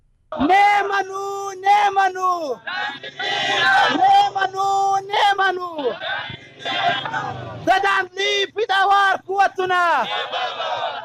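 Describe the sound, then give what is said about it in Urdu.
Protesters chanting slogans at a street rally in Qila Abdullah, Pakistan. Many voices shout together in loud, rhythmic bursts with short pauses between phrases, held for several seconds at a time. “اس سلسلے میں قلعہ عبداللہ شہر میں ایک احتجاجی rally بھی نکالی گئی، جس کے شرکا نے یہ نعرے لگائے۔”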